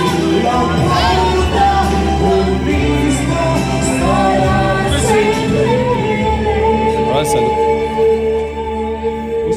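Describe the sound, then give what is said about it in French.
Loud, continuous din of a karaoke bar, with people shouting and yelling over a dense, steady wash of music and crowd noise throughout. “Là, on est sorti, il y avait le karaoké, ça hurlait un petit peu.”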